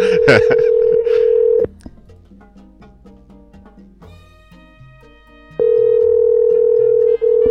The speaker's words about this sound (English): I'm gonna call back one more time, and if Ryan doesn't answer, I'm gonna leave him a really awful voicemail message.